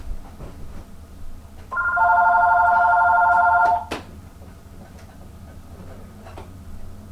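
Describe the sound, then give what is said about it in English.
A telephone rings once in a loud electronic trill lasting about two seconds, set against a quieter background before and after. “I'm sorry about that other phone. Hold on 1 second.”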